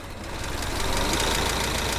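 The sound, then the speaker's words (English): A 1914 Ford Model T gasoline engine, started with a hand crank at the front of the car, runs with a rough, rapid knocking beat that grows louder over the first half-second and then holds steady. “He starts a 1914 gas car, the classic black Ford Model T. He turns a crank at the front of the car. It takes a couple of tries and some elbow grease.”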